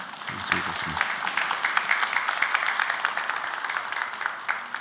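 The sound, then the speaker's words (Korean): Applause from a church audience at an in-person worship service on a snowy day: many quick claps blending into a soft, steady patter, with a brief voice at the start. “서로에게 한번 오늘 위로의 박수를 한번 보내고”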